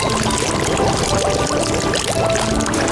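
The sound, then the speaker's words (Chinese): Hot water poured from a large basin into a pot of spices and local chili paste being stir-fried for a fish-head hotpot: a loud, steady rushing splash that runs without a break for the whole clip. “香料和本地辣椒酱炒出香气，再加入一大盆热水”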